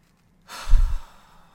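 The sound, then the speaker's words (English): A single deep breath, a soft airy rush that swells quickly, peaks and then fades out, alone against near silence. “So again, taking a deep breath.”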